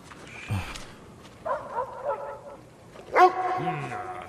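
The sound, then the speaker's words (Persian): A dog barking: a few short, sharp barks and yips with a brief whine, in moderately loud bursts separated by pauses. “چرا اینقدر وقوق میکنی؟ هی ساکت باش.”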